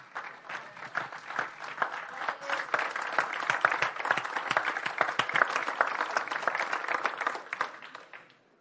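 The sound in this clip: A church audience applauds to welcome their pastor, many hands clapping in a dense, steady patter that holds for several seconds before thinning out at the close.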